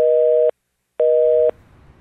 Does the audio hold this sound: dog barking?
no

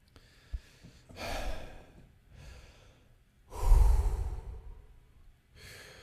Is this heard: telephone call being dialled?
no

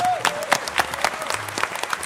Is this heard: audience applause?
yes

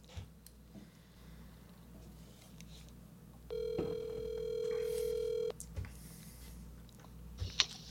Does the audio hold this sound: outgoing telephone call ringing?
yes

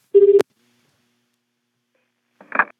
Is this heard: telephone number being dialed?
yes

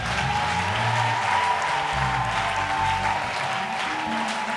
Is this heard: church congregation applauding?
yes

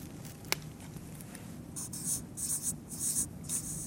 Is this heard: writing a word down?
yes

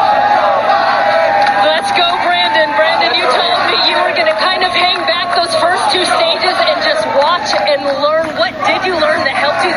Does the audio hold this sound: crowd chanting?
yes

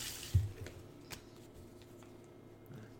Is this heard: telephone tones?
no

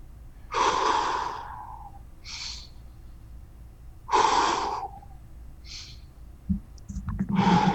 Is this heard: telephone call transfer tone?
no

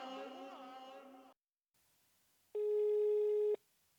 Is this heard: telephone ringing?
yes

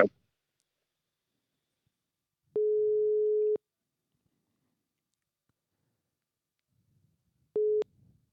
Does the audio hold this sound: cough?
no

